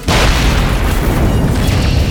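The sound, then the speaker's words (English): Deep, loud explosion as an energy bolt strikes a jeep amid swirling sand, a continuous roaring rumble that sets in at once and holds without a break for about two seconds. “One of her random force bolts struck a Jeep.”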